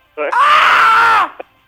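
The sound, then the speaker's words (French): A person imitates the scream of someone falling down stairs: one loud, sustained, wavering cry lasting about a second, followed by a brief short vocal burst. “Je me pète la gueule, je tombe dans les marches, okay. Je crie « Ah!”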